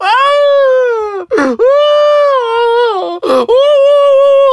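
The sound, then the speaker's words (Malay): Judges on a live reality show wail in loud, drawn-out moaning cries, each long tone sliding and holding before breaking off in a sharp gasp, with a second cry following. “Kenapa juri-juri lain pun sama meraung ya? Goblok semua. Semua pakat meraung.”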